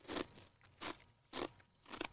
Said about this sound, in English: But when you actually eat the whole chip, it tastes like Fruit Loops.